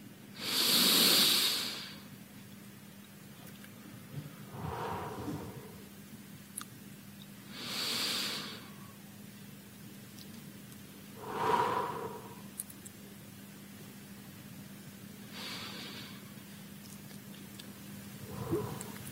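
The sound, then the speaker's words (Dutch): Slow, deep breaths in and out during a guided relaxation exercise: a few long, airy inhales and exhales spaced evenly with quiet pauses between, soft and breathy over a faint steady hum. “En we kunnen een paar keer samen inademen. En uit.”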